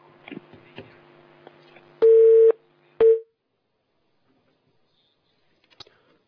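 A telephone line tone on a call-in phone line as an incoming call connects: two short, loud, steady beeps, the first about half a second long and the second shorter, then near silence.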